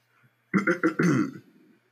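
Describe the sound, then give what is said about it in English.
A person clears their throat in a few rough, gravelly bursts that run together over about a second, fairly loud and heard alone, with no talking. “I don't know why I cleared my throat so early.”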